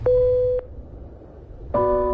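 A telephone line sounds a steady electronic tone after a call is hung up. One short, single-pitched beep is followed by a pause and then a louder, richer multi-note tone.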